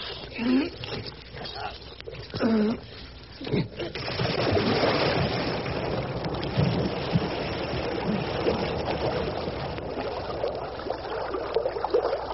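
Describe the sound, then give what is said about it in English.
Water washes and splashes around a small boat being heaved past reeds into clear water. A few short spoken phrases come first, then a steady, rushing, trickling wash continues to the end. “Oh, hear that? Clear water.”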